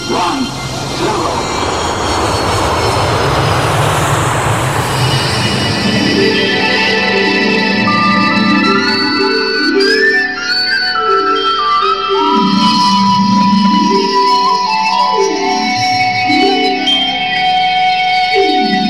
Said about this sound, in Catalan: Som a punt d'enlairar-nos amb la nau Les 7 llunes.